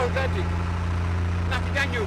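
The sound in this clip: A boat engine drones steadily at a low pitch throughout, on a trip out to the Skellig rocks in the Atlantic, with a few brief higher sounds over the hum.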